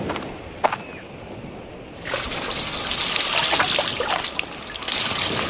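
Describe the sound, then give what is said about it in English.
Gasoline being poured from a can and soaking the inside of a car. After a couple of seconds of near silence, a loud, steady splashing wash of liquid begins and keeps going to the end. “A lot of gasoline in one can. Soak the inside, too.”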